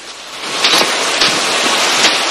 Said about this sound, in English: Drenched by another downpour, Joan follows her guide as he hacks through dense undergrowth.